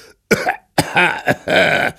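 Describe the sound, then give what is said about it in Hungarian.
Coughing and sneezing from a man in a small boat on the waves, acted out by a voice: a few harsh, throaty bursts in quick succession, fairly loud, with no other talk. “Csak hamar a csónakban köhögött, prüsszögött a híres utas.”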